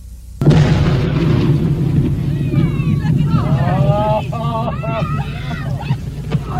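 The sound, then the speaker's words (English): An explosion blasts apart a beached whale carcass on sand dunes. A sudden loud boom gives way to a long, loud rumble with wind noise, and voices are heard over it. “where the blast blasted blubber beyond all believable bounds.”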